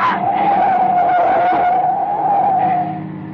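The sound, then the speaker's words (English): Car tyres skid on a road at night as another vehicle tries to force the car off the road. A loud, sustained tyre squeal holds a steady pitch for about three seconds over a low rumble, then eases off. “Oh, we're skidding.”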